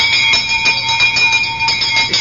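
An alarm gong on an anti-theft bag rings loudly and without a break, a bright metallic tone pulsing rapidly and evenly throughout.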